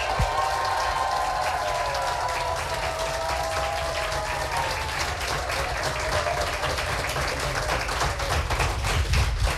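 An audience applauds during a live text-reading competition. Dense, steady clapping from many hands fills the whole stretch without pause.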